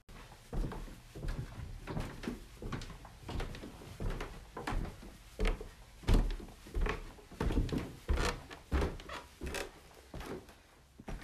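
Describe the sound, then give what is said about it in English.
Creaky wooden stairs being walked up: a long run of irregular knocks, thuds and creaks of steady moderate loudness, with no voices. “Here's the sound of my creaky stairs that I walk up every day.”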